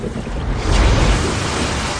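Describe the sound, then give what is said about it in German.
Rushing water from a cold-water geyser shooting a fountain out of a hole in the ground, a broad, loud hissing roar that swells in the middle and then holds steady, with no voices. “Eine Wasserfontäne schoss aus dem Loch. Wow, was ist das? Das ist ein Kaltwassergeysir.”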